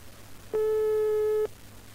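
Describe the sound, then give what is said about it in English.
A single steady electronic beep serves as the stop cue on an instructional cassette tape: a pure, mid-pitched tone about one second long that starts and stops abruptly over faint background hiss. “That tone was our stop cue, and you'll hear it whenever I want you to stop the tape to do something on your own.”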